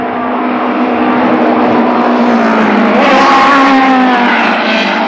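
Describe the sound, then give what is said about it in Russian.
Race cars drive on a racetrack, engines revving to around 11,000 rpm. A loud, steady engine drone holds throughout, and a sharper, higher whine swells in partway through. “Они провожают взглядами машины на трассе.”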